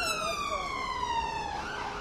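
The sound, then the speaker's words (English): An ambulance siren passes along a street in England, a loud, steady wail whose pitch slides slowly downward over two seconds above a low traffic rumble. “alarms go, ambulances going by, fire trucks and all kinds of things.”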